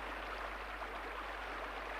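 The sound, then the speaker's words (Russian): Heavy rain pouring down in a steady, unbroken hiss, even and fairly faint throughout, with no voices or other sounds. “Ну и льет. Я в самом деле весь промок.”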